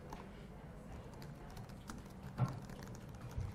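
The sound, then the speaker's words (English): Faint, quick keystrokes patter on a computer keyboard as a student email address is typed in, a steady soft clicking with a couple of slightly louder taps. “You're going to type in your student email address there.”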